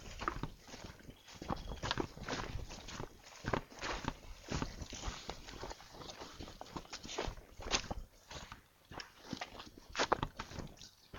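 Footsteps of people walking around outdoors after midnight, a long run of irregular, soft steps crunching and scuffing underfoot at a fairly faint level, with no talk.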